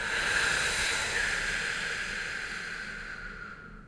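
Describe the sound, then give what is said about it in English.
A long, steady exhale through pursed lips gives an even, airy hiss that slowly softens and fades out near the end. “keep your focus on breathing in through your nose and breathing out through pursed lips.”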